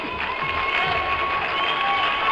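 An audience applauds and cheers to welcome a DJ onto the stage at a live show, a steady, busy mix of clapping and crowd noise at a moderate, even level.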